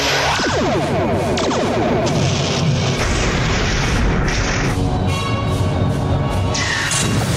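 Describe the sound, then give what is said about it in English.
Torpedoes are fired from a ship in battle: a loud, continuous roar of heavy booms and crashing blasts rolls through the whole stretch, with no talk. “Ready torpedoes. Aye, sir. On my command. Fire!”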